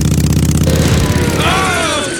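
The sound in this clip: An engine fitted with an improvised tomato-can carburettor is revved: a steady, loud, buzzing low drone with rapid pulsing, and a voice joins over it in the second half.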